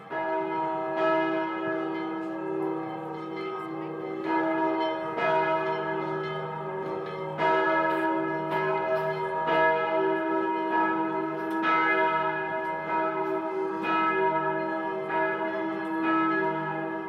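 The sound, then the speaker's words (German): Church bells of a late Gothic collegiate parish church with two pointed towers ring out in slow, repeated strikes. Each toll blends into a long, overlapping hum that sustains between strikes, with no talk. “die spätgotische Stiftspfarrkirche mit ihren 2 spitzen Türmen und natürlich die Glocken.”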